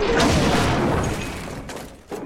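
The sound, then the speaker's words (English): A metal shelving unit topples over with a loud, sustained crashing clatter that slowly fades, followed by a short knock at the very end. “Then the shelving unit falls on him.”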